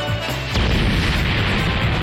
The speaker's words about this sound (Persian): اینو بگیر، حمله مخصوص ستاره ی انفجاری!